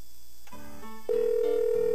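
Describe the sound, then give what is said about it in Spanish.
Ringback tone on an outgoing telephone call: faint tonal murmurs, then a steady, clear mid-pitched tone that starts and holds unbroken to the end. “¿Está timbrando? Sí, está timbrando ahí.”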